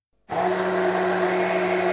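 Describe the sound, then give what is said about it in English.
Kitchen blender motor switching on abruptly after silence and running as a loud, steady whir with a strong tonal hum, without talk. “The dishwasher stops and the blender starts.”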